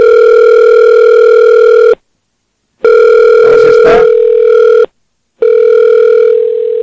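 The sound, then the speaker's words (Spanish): Telephone ringback tone as a radio host phones a guest: three long, steady buzzing tones separated by short silences, with some crackling noise during the second tone. “la llamada al arcipreste.”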